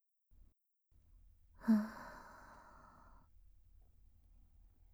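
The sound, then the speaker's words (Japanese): A single deep exhale with eyes closed, emptying the lungs during a guided breathing exercise: a soft, breathy rush with a brief louder onset that trails off over about a second and a half, surrounded by near silence. “それでは目を閉じて、まず息を吐き切ってください。”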